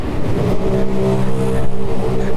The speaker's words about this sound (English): Sorry for the noisy traffic.